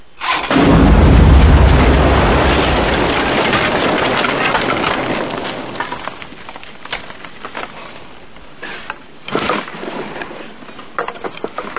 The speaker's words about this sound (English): I think you woke up the dead with that blast.